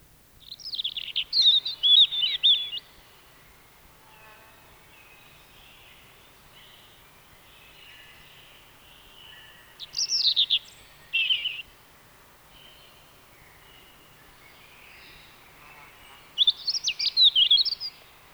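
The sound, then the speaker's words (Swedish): A European robin sings in high, thin, warbling phrases that come in separate bursts with quiet pauses between them. The background is faint and still. “Det var järnsparv, nu följer rödhake.”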